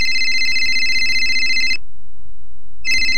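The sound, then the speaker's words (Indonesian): A telephone rings with a sustained, bright electronic tone. It cuts off into silence for about a second, then starts again just before the end. “Ini nih, Ibu Ningsih menelpon.”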